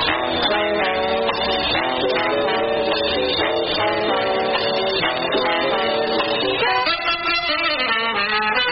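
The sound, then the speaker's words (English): Jazz music plays on the radio as a dense, continuous instrumental ensemble with a muffled, narrow top end. “They spell it J-A-Z-Z. They call it jazz. And it sounds like this.”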